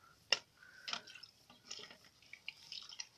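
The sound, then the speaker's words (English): Kitchen utensils being washed with soap: faint, scattered drips of water with light ticks and clinks of utensils. The sounds are irregular and quiet, with no talking. “We wash utensils using soap.”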